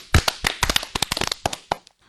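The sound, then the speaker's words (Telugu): Audience applause for children who have just sung a song: many quick, crisp, irregular hand claps from a small group, thinning out and stopping after about two seconds. “పాట పాడిన చిన్నారులకు చప్పట్లు కొడదామా?”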